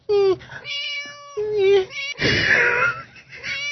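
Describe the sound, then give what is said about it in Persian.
A person's voice imitates a cat, giving a few drawn-out, nasal, high-pitched meows in quick succession, loud and clear. “میو میو میکنه”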